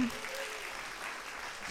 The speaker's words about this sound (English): Michelle, who couldn't be here today. Michelle, yeah, you can give her a clap.